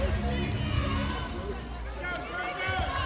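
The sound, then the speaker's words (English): A basketball is dribbled on a court during a game, giving repeated hollow thuds under a commentator's steady play-by-play talk and a faint crowd murmur. “Here's Saar with the dribble out front to Gregory on the left wing.”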